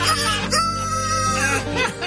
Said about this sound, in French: je vais te montrer comment j'ai réussi à faire crier un coq à l'heure que je veux avec de la broche puis une batterie de char.